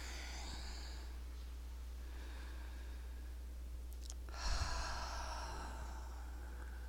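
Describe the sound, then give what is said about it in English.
Slow, deep breathing during a guided relaxation exercise, exhaling through the mouth: a few soft, drawn-out breaths of air, each lasting about a second, separated by pauses over a constant low hum. “let's begin by taking some really nice long and deep breaths, exhaling through your mouth.”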